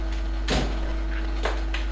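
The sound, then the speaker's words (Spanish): A wobbly chair shifts and creaks, giving a few short knocking creaks over a steady low hum. “¿Quieres cambiar de silla? Se mueve todo, ¿no?”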